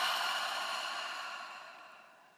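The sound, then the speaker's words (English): A deep breath exhaled slowly during a guided relaxation exercise: a soft, airy rush of breath that fades gradually over about two seconds. “Take a deep breath in. Exhale, let it go.”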